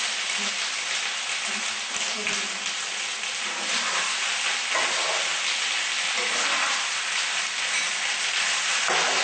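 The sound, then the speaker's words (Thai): Stir-frying in a pan gives a continuous, loud, bright sizzle that holds steady for the whole stretch, with faint low knocks from stirring early on. “เวลาผัดเนี่ยระวังด้วยนะคะเพราะว่ากระเด็น”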